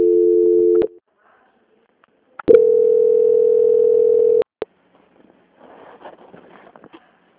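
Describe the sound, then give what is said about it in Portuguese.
Telephone transfer tones sound as a customer service call is handed over to quality control: a steady mid-pitched tone of under a second, a pause, then a longer identical-sounding tone of about two seconds, followed by faint murmuring. “aguarde em linha, que eu vou transferir o contato para o controle de qualidade, Fabiane”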